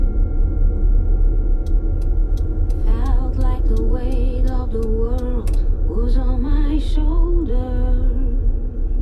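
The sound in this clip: A car drives along a road with a steady low engine rumble throughout. Fainter higher tones drift over the rumble from a few seconds in.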